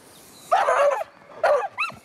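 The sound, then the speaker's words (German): A dog barks and yelps during a training session: a few sharp, tonal cries, the first longer and wavering, then two shorter ones in quick succession, fairly loud over a quiet background. “Und bevor du den Hund schickst, drehst den Hund einmal, dass er die Richtung nicht weiß.”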